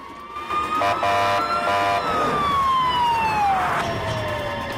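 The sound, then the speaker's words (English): An ambulance siren passes along a street, loud over road noise. A wailing tone breaks into a couple of brief rapid warbling bursts, then slides steadily lower in pitch as the vehicle goes by. “moments later, their pursuers are forced to stop by a passing ambulance.”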